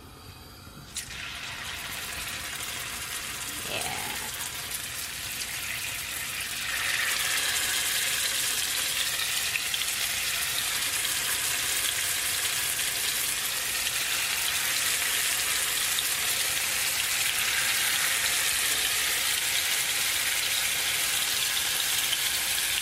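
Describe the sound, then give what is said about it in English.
Tofu pieces drop into hot oil for deep frying, setting off a steady, bright sizzle that swells noticeably louder partway through and then holds as a dense, even hiss with no talking. “All right, my oil's nice and hot, so let me start dropping these in.”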